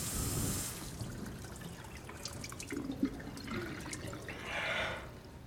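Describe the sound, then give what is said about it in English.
Water running from a tap as a flannel is washed out under it over a basin: a steady, fairly faint rush and trickle with small splashes, no voices. “Dale washes the flannel out under the tap, then puts it on the side of the basin.”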